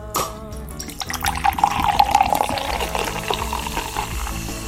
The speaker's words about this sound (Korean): 얼음 꽉 채운 컵에 시원한 콜라 콸콸콸 채워서 나가 보겠습니다